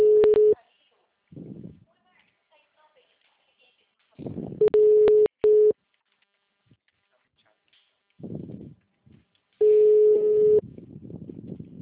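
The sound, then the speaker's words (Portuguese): After a dropped call, a telephone line gives a steady single-pitched tone in a few separate bursts, with stretches of muffled talk between them. “caiu a ligação.”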